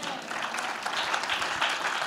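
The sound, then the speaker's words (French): Congregation applauding during a church sermon: a dense, steady wash of many hands clapping that holds at an even level for the full two seconds. “Tu as la vie éternelle, acclame le Seigneur.”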